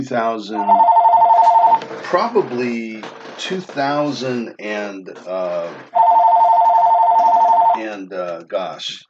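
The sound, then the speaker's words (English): A telephone rings in two long, steady electronic bursts, one near the start and another later on, while a person talks between and around the rings. “I'm going to turn this phone off. My apologies.”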